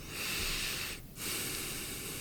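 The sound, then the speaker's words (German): Heavy breathing from a man, two long, hissing, rasping breaths split by a short gap, faint and breathy with a slightly snorting edge. “Ich atme schwer, aber das ist ein bisschen peinlich, ne?”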